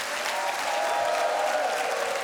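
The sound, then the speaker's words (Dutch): Audience applause at a live show, a dense, steady wash of clapping that runs unbroken through the whole clip at an even loudness. “Dank u wel, dames en heren. Applaus voor Nathalie.”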